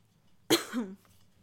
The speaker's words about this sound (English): I'm so sorry with the coughs.